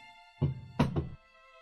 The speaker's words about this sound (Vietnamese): vừa dùng ngón tay gõ lên mặt bàn 3 tiếng